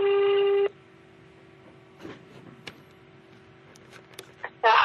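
Telephone tone while calling back: a loud, buzzy tone lasting under a second, then near silence with faint scattered clicks, and another loud tone starting at the very end.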